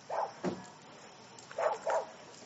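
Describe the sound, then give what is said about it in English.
Dogs bark in four short, fairly faint yaps, a quick pair followed by a pause and then another pair, with no talk over them. “There's dogs barking at me.”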